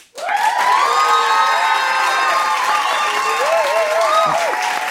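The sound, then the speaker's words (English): Loud cheering and whooping from a live studio audience in Austin, Texas. It bursts in abruptly and holds steady for several seconds, with high shouts rising above the crowd. “So Austin, let me hear it. Just what does democracy sound like?”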